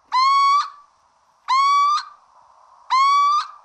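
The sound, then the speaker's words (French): A tawny owl, a woodland species, gives three drawn-out calls. Each call is a loud, slightly harsh, even-pitched note lasting about half a second. The calls are evenly spaced, with quiet gaps between them and no other sounds. “Et la dernière, donc c'était la chouette ulotte, c'est celle qui vit dans les bois.”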